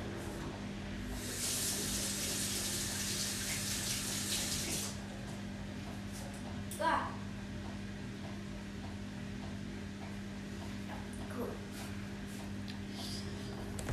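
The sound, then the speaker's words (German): Water runs from a tap while someone washes their hands, a loud hissing stream lasting a few seconds before it drops to a softer trickle. A steady low hum sits underneath. “Ich muss jetzt einmal Hände waschen.”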